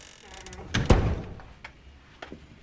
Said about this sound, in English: She shows him into a run-down apartment. Then closes the door behind him.